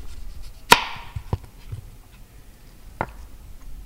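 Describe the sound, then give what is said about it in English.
A knife cuts a thin slice of Indiana apple for a cocktail garnish, making a few sharp, crisp cuts with short gaps between them and one clearly louder cut near the start. “And then I'm just going to garnish it with a nice thin slice of an Indiana apple.”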